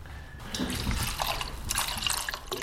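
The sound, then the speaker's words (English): Liquid pours as about 70 ml of coriander distillate is added to a gin bottle, a continuous trickling and splashing fill with small drips, steady and fairly soft throughout, with no talking. “So that's our coriander there. So we're going to add another 70 mils, so about 10% of the overall liquid in the bottle.”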